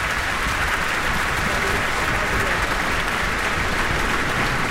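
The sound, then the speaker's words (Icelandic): Sustained applause from a concert audience in Eldborg hall: a dense, steady wash of many hands clapping, loud and unbroken from start to finish. “Virkilega vel fagnað. Hér í Elborg.”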